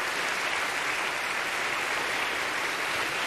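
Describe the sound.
An evening audience greets a speaker coming onstage with dense, even applause, a steady wash of many hands clapping at constant loudness with no breaks or voices standing out.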